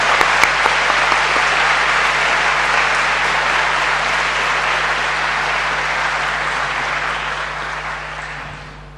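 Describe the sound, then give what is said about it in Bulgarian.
Applause from an audience at an award ceremony as a recipient is honoured, a loud, sustained clatter of many hands that holds steady for several seconds and then gradually trails off at the end. “моля да я аплодирате”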